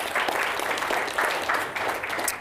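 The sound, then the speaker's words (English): An audience applauds a speaker at a talk about Antarctic expeditions, the clapping a steady, dense patter of many hands that holds evenly throughout at moderate volume. “Can we give Lane a big round of applause?”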